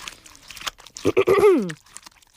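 A giant chewing while eating lunch: a few rough, crunchy bites, then a louder voiced munching grunt that slides downward in pitch before fading.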